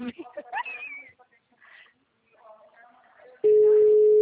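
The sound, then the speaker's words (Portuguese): An unanswered WhatsApp call produces a steady ringing tone that begins abruptly after a brief stretch of voice sounds and holds unbroken at an even pitch to the end. “Ô, cara, não tá atendendo não, amiga. Já é a segunda vez que eu tô ligando, amiga.”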